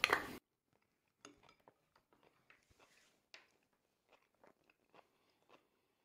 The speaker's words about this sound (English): It's time for the taste test. Let's give this a taste. I've got some cucumbers hanging off my spoon here.